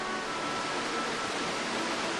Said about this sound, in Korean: 짐바브웨와 잠비아를 가로지르는 잠베지강과 협곡이 만들어낸 폭포의 위용.